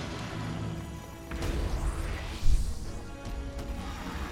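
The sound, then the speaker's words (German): Sword attacks clash in a video game battle: a busy, noisy wash of combat effects with several sharp smashing hits, one louder impact standing out midway, and no voices over it. “Danke, danke, dass du die ganze Zeit mit dem Schwert angreifst. Wichtig, dass er die ganze Zeit mit dem Schwert angreift.”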